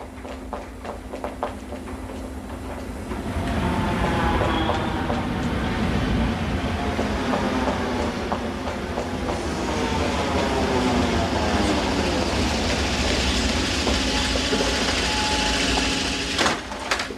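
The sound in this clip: A train carriage runs on rails with a steady rolling rumble and rhythmic wheel clicks. It grows louder after the first few seconds, with faint squealing tones riding over it.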